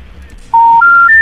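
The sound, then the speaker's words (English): A telephone intercept signal for a dialed number not in service: after a quiet start, three loud, pure beeps step upward in pitch one after another. “The number you dialed is not in service. That's why we couldn't call.”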